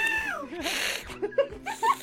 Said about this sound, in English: the cat is back. Oh my god, the cat! Oh my god, somebody get the cat!